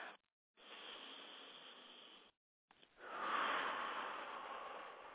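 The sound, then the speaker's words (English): Deep breaths drawn during a guided meditation: a soft, airy inhale followed by a longer, louder exhale, each a smooth hiss with a short silent pause between them. “So let's take a few deep breaths in.”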